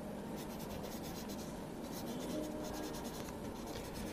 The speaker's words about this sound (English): And could you fill in this registration card?